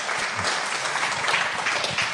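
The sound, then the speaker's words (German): Applause fills a political debate on pension policy, a steady, dense wash of many hands clapping at an even loudness throughout, with no voice rising above it. “Diesen Applaus wollen wir nicht unterschlagen.”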